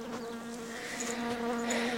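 Bees buzz inside a beehive that has been set down on the ground, a dense, steady droning hum with a slightly wavering pitch that carries on without a break and with no voices.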